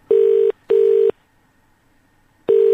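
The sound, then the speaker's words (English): A telephone ringing tone on a dialed call: a loud, steady mid-pitched double pulse, a pause, then the tone starting again. “we dialed the number”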